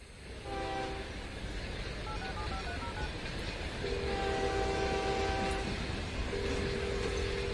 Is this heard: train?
yes